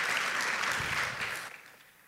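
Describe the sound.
An audience applauds to welcome a guest speaker to the stage with a dense, steady clatter of many clapping hands that holds for about a second and a half, then quickly thins and fades away.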